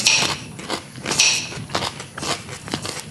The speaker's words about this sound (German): Jetzt esse ich Radieschen und Kuchen.